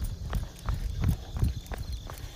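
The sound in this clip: Running footsteps of a person out for a little run, a quick, steady rhythm of thudding footfalls with crisp scuffs on the ground.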